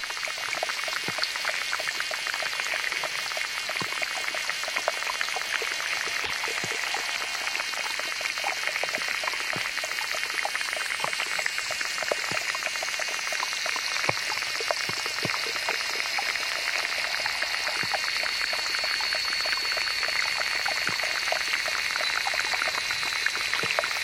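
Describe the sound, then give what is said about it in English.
Underwater insects in a small pond make a dense, continuous crackle of tiny clicks and ticks, fizzing steadily like rain on water throughout. “David Dunn gave this mix of recordings of underwater insects who inhabit small ponds from Africa to New Mexico.”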